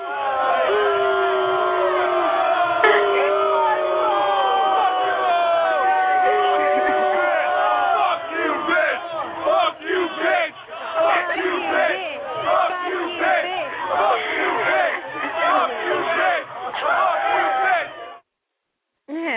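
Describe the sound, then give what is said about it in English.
A studio audience erupts in loud shouts, whoops and jeers, many voices overlapping in a dense, continuous roar that breaks off briefly near the end. “Studio audience, what do we think of that?”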